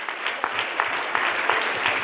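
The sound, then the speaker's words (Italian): A crowd applauds at a political campaign gathering with dense, steady clapping that holds an even loudness throughout. “Facciamogli un applauso.”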